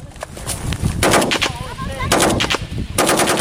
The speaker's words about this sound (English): Here's the sound. This is footage shot last week. Shows Kurdish fighters there in and around Kobani from the People's Protection Units launching attacks on ISIS targets around the town.